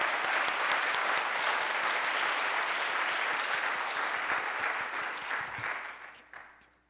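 An audience at a year-end reading and celebration applauds to welcome a poet to the stage. The steady, dense clapping holds for several seconds, then tapers off and dies away near the end.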